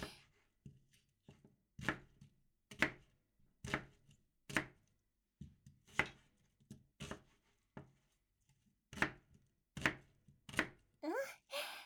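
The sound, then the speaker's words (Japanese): A knife chops a peeled onion into wedges, giving many sharp, quiet cuts in an uneven rhythm with short pauses between groups of strokes. “皮きれいに取れた。これをくし形切りに。”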